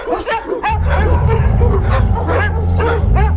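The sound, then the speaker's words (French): A thin stray dog that was lying curled up on a paved street rises and barks: many sharp barks and yips in an uneven rhythm over a steady low droning background. “C'est un chien couché là, roulé en boule sur le pavé. L'animal se dresse paresseusement sur ses pattes maigres et aboie en direction de Paul.”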